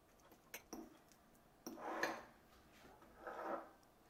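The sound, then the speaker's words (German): A fork mixing garlic paste into butter gives soft, faint scraping and clinking in a few short bursts, the longer ones swelling and fading, with quiet gaps between and no talk. “Der Knoblauchbrei wird zu der Butter gegeben. Dann wird beides mit Hilfe einer Gabel vermischt.”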